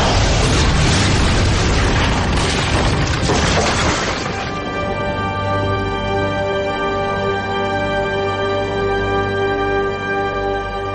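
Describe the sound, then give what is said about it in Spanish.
A fireball falls and explodes in a horror-thriller film, a loud, dense burst of crashing rumble for about four seconds that gives way to a sustained, humming tonal drone lasting to the end. “Finalmente, una última bola de fuego cae sobre ellos, asolándolo todo.”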